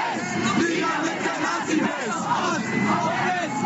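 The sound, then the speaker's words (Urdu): Crowd of anti-nationalist protesters in Cologne chanting slogans against Nazism, a dense, loud mass of massed voices rising and swelling steadily throughout. “قوم قوم پرستوں کے یہ مخالفین Cologne میں نعرے لگا رہے ہیں کہ مشرق ہو یا مغرب، نازی بیماری مرد آباد۔”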